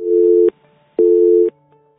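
Telephone line tones while trying to take a call: two identical half-second tone bursts at a steady mid pitch, separated by a short gap with only a faint hum in between.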